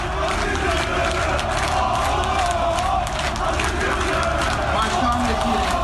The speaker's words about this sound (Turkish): Üyeleri selamladığı sırada Aziz Yıldırım sloganları yükseldi. Aziz Yıldırım da staddaki yerini aldı. Üyelerin tezahüratına işte böyle eşlik etti.